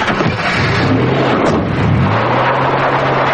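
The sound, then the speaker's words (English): A van backs up and drives away, giving a low, steady engine drone with a rough, windy noise bed and a deeper tone that settles in partway through. “Frost backs up the van and drives away.”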